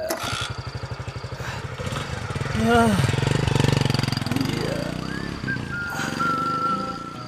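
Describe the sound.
A motorbike engine starting and running, with a rapid, steady thumping that swells into a louder, rougher rumble. A voice cuts in briefly over the engine.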